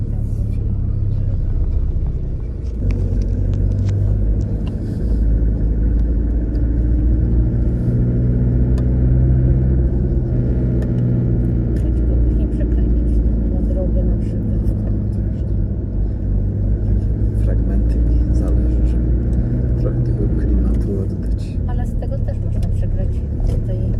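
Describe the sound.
A car drives along a road, its engine and tyres making a steady low rumble that runs through the whole stretch while people talk over it.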